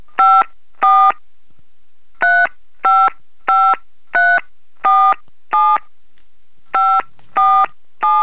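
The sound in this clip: Touch-tone telephone dialing for an international call: eleven loud, clear keypad beeps with no talk. Two come first, then after a gap a steady run of six, then a final three.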